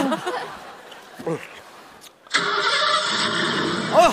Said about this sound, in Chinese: 要不先把车启动一下呢？